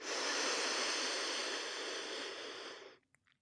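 A deep breath drawn in through one nostril during alternate-nostril breathing, a steady airy hiss lasting about three seconds before stopping abruptly into near silence.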